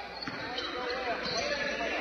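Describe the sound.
A basketball is dribbled down the court during a game, a few dull bounces thudding at an uneven pace under steady voices and crowd noise.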